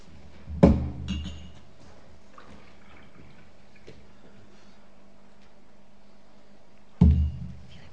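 A full drinking glass is handled in a live demonstration with a volunteer. Two sharp knocks of the glass come several seconds apart, each with a short ringing tail, and there is near-quiet between them.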